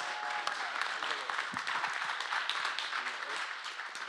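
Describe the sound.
Applause from a church audience welcoming a guest preacher to the podium: dense, steady clapping throughout, with voices mixed into the noise.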